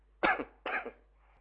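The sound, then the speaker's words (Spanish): Two harsh coughs from a preacher during a church sermon, about half a second apart, each sharp at onset and rough as it fades, with no talk around them. “Tengo esta tos que me impide hablar, te ruego que la pueda controlar.”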